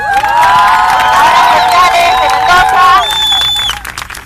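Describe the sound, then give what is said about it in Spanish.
A crowd of women at a meeting cheers and whoops loudly, with high shrill whistles over a dense, steady roar that eases off at the very end. “primero que nada, que nos merecemos un aplauso, compañeras.”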